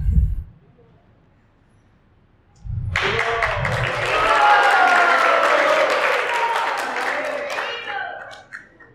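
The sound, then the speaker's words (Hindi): Devotees applauding themselves at an ISKCON Sunday feast class in Vrindavan Garden, Amritsar: a brief voice and a quiet pause, then loud, steady clapping that swells, holds for several seconds, and tapers at the end. “माताएं कोई ताली नहीं बजाई तुम्हारे लिए भक्त लोग ने अपनी ताली खुद ही बजा लिया”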